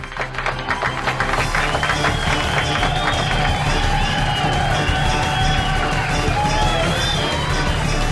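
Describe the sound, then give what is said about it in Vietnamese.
A crowd at a conference cheers and applauds a speech: sustained, loud applause with shouts and high whoops running through the whole stretch. “Ông đã đọc một bài diễn văn lưu loát và được nhiều người vỗ tay tán thưởng.”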